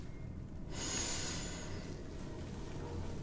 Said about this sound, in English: So, could you breathe in for me?